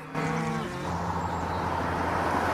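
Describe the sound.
Cattle crammed into rusty fenced enclosures, with cows in every direction: one cow gives a low, harmonic moo at the start, and a continuous low rumble follows to the end.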